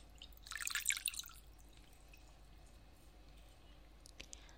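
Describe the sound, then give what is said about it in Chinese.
Water drips and splashes faintly while someone is being bathed. A brief cluster of wet drips and trickles comes early, then near silence, then a single soft drip close to the end. “好了，您闭上眼睛，我来服侍您洗澡了。”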